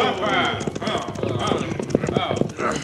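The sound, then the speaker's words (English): Several horses ridden up by a group of riders, their hooves clip-clopping in a quick, busy rhythm that runs throughout at a fairly loud level. “Well, the sheriff and several people ride this way.”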